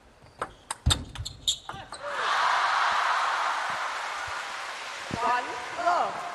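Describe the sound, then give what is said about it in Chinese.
A table tennis ball bounces sharply several times as a player prepares to serve in a women's singles final at a Grand Slam event. Crowd noise then swells, and a commentator talks near the end. “7局4胜制，中国选手王曼玉率先发球。”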